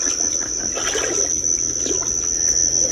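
Water splashes in a lake as someone gets soaked. A loud, unbroken, hissing wash of spray and churning runs through the whole moment, with no talk.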